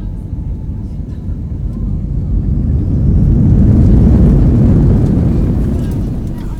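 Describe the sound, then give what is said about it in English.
An airplane landing at Lviv Airport makes a deep, continuous roar. The rumble swells to its loudest around the middle, then gradually eases off. “Ladies and gentlemen, welcome to Lviv Airport, where the local time is 10:45 a.m. Please remain seated with your seatbelts fastened until the aircraft will come to a complete stop.”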